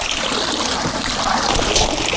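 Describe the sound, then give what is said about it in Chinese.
Splashing and trickling water as softshell turtle hatchlings are scooped out of a pond: a loud, continuous churning wash with no voices. “现在呢，我们就捞那些苗出来，”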